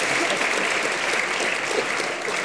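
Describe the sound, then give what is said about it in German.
An audience claps, a steady, dense applause of many hands that stays at an even level throughout. “Da wird auch geklatscht.”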